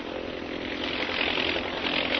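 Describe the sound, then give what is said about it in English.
An army plane's propeller engine flying overhead in a radio drama, a steady, rough drone that swells slightly louder as it goes on. “An army plane in advance of the mechanized column sights something and reports by radio to the column below.”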